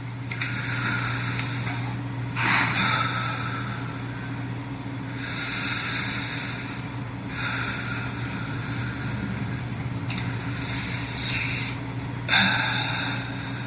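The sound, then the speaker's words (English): Three deep breaths taken at a prayer gathering, heard as long breathy rushes of air in and out that rise and fade in turn over a low steady hum, with no talk. “Now take three deep breaths.”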